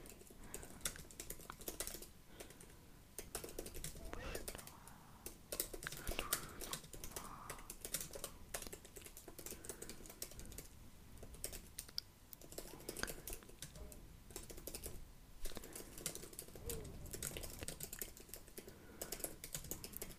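Fast, continuous typing on a computer keyboard, a dense stream of light key clicks with small pauses, running for about twenty seconds without speech.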